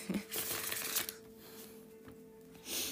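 Tarot cards being shuffled and drawn: a few dry, rustling bursts of riffling card noise, loudest at the start, separated by quieter stretches over a faint hum.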